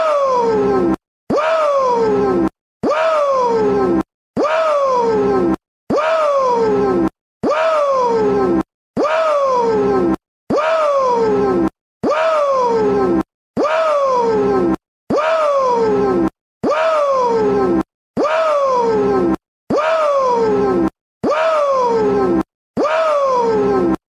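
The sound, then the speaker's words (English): Repeated loud "woo" yells from a professional wrestler. Each yell falls in pitch, and many follow one another in a steady rhythm with short gaps between them. “No better way to end a Dusty Road show than with a minute of woos from Ric Flair.”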